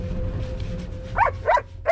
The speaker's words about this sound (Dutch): Dat is de waakhond, hè? Ja, als hij met de golfkar door de boom gaat gaan, dan wordt hij helemaal enthousiast. Dan gaat hij weer hard blaffen en meerennen.